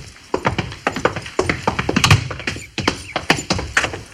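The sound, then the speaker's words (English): A single horse is ridden toward a fort gate, its hooves striking in a quick, uneven clip-clop of many hollow thuds. The hoofbeats are fairly loud and continue throughout, with no talk. “I suppose that's the chief riding in alone.”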